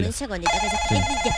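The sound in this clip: A telephone rings with a steady, bright electronic tone that starts partway through, heard under a person talking.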